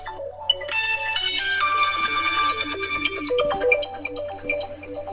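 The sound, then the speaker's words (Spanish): A mobile phone ringtone plays during a women's gathering: a bright electronic melody of many quick stepping notes, steady and moderately loud for about five seconds over a low constant hum. “A Concepción no la oímos, pero a su teléfono sí.”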